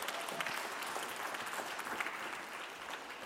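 An audience applauds to welcome a pastor onto a stage: dense, steady clapping that holds at an even, fairly soft level throughout, with no voices over it.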